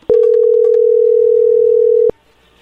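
A telephone line rings before a call is answered. One steady, loud ringing tone holds at a single pitch for about two seconds and then stops abruptly.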